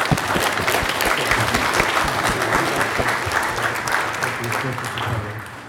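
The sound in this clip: Audience applause at an exhibition event as the crowd welcomes Tim Burton, a dense, steady wash of clapping with some crowd noise, easing slightly toward the end.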